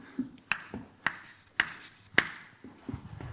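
Chalk writes equations on a board with four sharp, evenly spaced taps and faint scratchy strokes between them, alone and fairly quiet.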